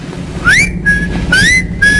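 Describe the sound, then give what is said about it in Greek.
A person whistles over the telephone in two phrases. Each phrase starts with a bright upward glide and settles into a steady held note. The sound is clear and shrill over a low line hiss. “Ποια αυτιά μου, μωρέ, κάποιος σφυρίζει το τηλέφωνο.”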